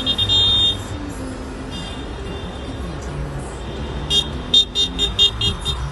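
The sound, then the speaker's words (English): A convoy of around 100 tractors in a go-slow farmers' protest heading through Dover towards the docks, heard as a steady low engine rumble with several short horn toots near the end. “That's the sound of around 100 vehicles heading through Whitfield towards the docks yesterday afternoon.”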